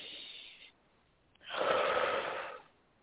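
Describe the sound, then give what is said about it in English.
A single deep breath in, heard alone as a long, airy, steady rush of breath of about a second. A fainter stretch of breath noise comes before it. “we're going to start off with a deep breath”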